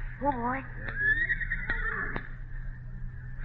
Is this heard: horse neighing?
yes